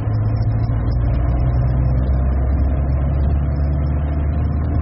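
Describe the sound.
A car drives on through a checkpoint with a steady, low engine rumble that holds an even level throughout and has no voices over it.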